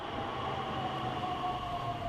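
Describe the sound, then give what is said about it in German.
Trains, suburban rail and underground trains at a busy Berlin railway hub make a steady, even rumble with a faint tonal hum and no distinct individual events. “Hier fahren Züge, S-Bahnen und U-Bahnen ein und aus.”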